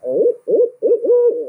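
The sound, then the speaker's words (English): Owl hooting at dawn, just before sunrise: a few low, breathy hoots in quick succession, the last one drawn out longer, loud and alone with no other sounds. “you get out there and the sun starts coming up, or just before the sun starts coming up, and you hear that first owl”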